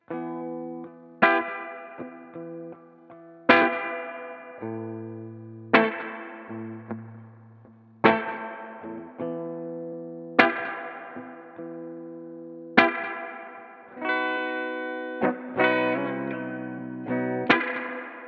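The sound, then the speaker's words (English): A Gretsch Billy Bo electric guitar on its bridge pickup plays a slow series of bright, clean plucked chords. Each chord rings and decays before the next, and a few quicker strums come near the end. “I mean, I really like bitey bridge pickups, but this thing just sounds really nice. Play that bridge again.”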